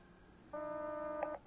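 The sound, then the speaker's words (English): A telephone tone as a dialed call goes through to a number that turns out to be out of service: a steady, faint electronic tone starts partway in, holds for about a second, and ends with a short blip. “I must have dialed it wrong. It's going through.”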